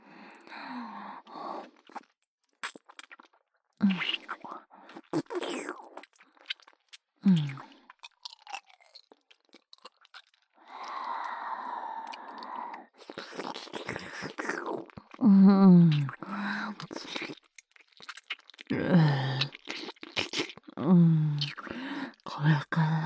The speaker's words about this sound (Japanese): では前回の復習も兼ねてベロチューをいたしましょう。舌を出してください。